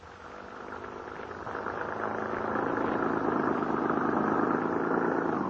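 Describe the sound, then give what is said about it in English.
Car engine running steadily while driving out into remote country, a continuous mid-pitched drone that grows slightly louder after the first second and a half, then holds even with no voices. “How much farther do we have to drive into the wilds, young man? We're almost there now.”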